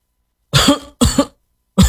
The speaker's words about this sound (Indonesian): Bapak batuk, Pak. Kalau Bapak batuk, ya ayo kita berobat, Pak.